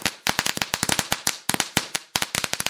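Rapid crackle of firecracker-style fireworks: many sharp, dry pops in irregular clusters separated by brief gaps, fairly loud, with no voices.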